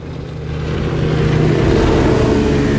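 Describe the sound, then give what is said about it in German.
Racing motorboats roar past, their engines a loud, steady droning growl that swells over the first second and then holds at full strength, with no voices. “Diese Rennboote. Als wir vor 5 Jahren das Haus kauften, gab's die noch nicht.”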